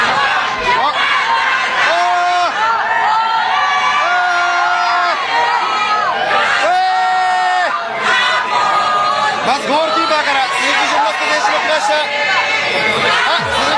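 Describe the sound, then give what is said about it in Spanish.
Football fans in Monterrey cheering as the Japan national team arrives: a dense, continuous crowd roar with shouts, whoops and chatter that stays loud throughout. “Señores, así recibieron a Japón el día de ayer en Monterrey. Escuchemos.”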